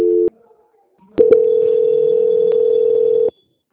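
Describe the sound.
Telephone call-transfer tone on a bank call, as a loan call is handed to a quality team: a brief steady tone, a second of silence, a click, then a long level tone of about two seconds that stops abruptly.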